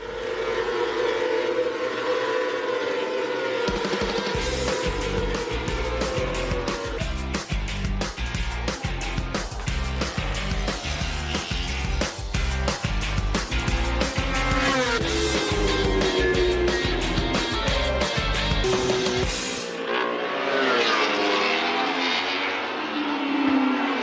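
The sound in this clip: Motorcycles racing on a track: a continuous, loud, high engine whine with shifting pitch and many sharp revving pulses, which cuts to a lower, steadier drone near the end.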